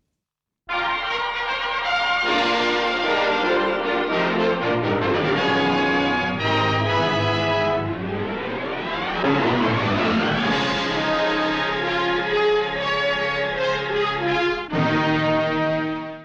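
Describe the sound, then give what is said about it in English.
A brassy orchestral fanfare for Paramount's 1952 VistaVision widescreen film process, loud and sustained, with bold stacked chords and a sweeping glissando that slides up and back down midway before a final held blast. “there was a fanfare that went with VistaVision. Yep, and it sounds a bit like this.”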